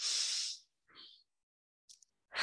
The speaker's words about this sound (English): Today is a good day, and I just want to stop and take a deep breath.